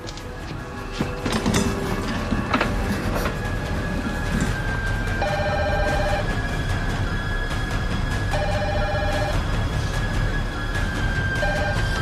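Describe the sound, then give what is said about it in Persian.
A telephone rings unanswered during a security emergency: repeated ring bursts, each about a second long, sound over a constant loud, dense background noise. “بردار. بردار. کرامبروک لعنتی جواب بده.”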